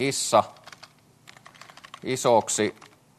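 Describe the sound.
Typing on a computer keyboard, a rapid run of light, faint key clicks heard between two short bursts of speech.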